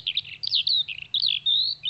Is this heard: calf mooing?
no